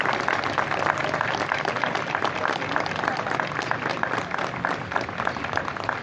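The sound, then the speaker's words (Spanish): Steady applause from the audience at an official May 18 commemorative ceremony in Durazno: dense, continuous clapping at an even level for about six seconds, with no talk over it. “Y vamos a reconocer con un fuerte aplauso el hermoso trabajo leído.”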